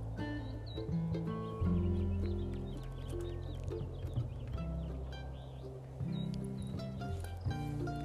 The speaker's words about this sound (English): And listen to the birds.